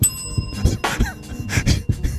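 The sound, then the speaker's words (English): A bell rings once at the start with a clear, bright metallic tone whose overtones hold for about half a second. It is followed by noisy bursts of vocal sounds. “ring the bell.”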